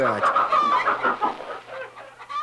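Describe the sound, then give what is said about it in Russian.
A chicken clucks in a quick, chattering run of short, nasal calls that wobble in pitch and keep going without a break. “Эй, ты, с дороги мокрая курица. Дай мне яйцо”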